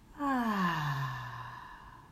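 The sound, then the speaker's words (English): A single long, voiced exhale with a sighing tone that falls in pitch and fades out slowly, taken during a guided in-and-out breathing exercise. “One last time together. Breathe in and out.”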